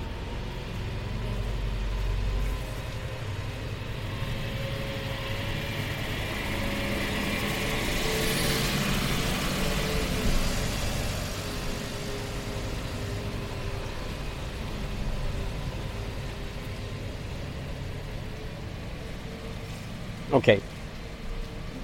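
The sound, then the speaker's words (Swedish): A truck passes along a city street: a broad engine rumble swells to a peak and fades back into steady low traffic noise, with a brief sharp click near the end. “Nu kommer det naturligtvis den där lastbilen igen. Jag kanske ska göra så att jag väntar tills den är förbi.”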